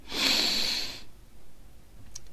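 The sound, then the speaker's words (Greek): Deep inhale through the nose during a belly-breathing exercise: one long, airy rushing hiss lasting about a second, then near quiet. “Ξεκινάμε. Εισπνοή.”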